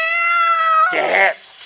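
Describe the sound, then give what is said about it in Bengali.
A cat meows loudly: a long, steady, high-pitched drawn-out cry, then a rougher, noisier burst that cuts off abruptly. “কেউ না, বেড়াল।”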